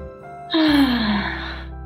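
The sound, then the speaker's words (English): One loud, deep breath is let out as a long sigh. The airy rush carries a voiced tone that slides downward in pitch and fades over about a second. “I think I just needed a deep breath.”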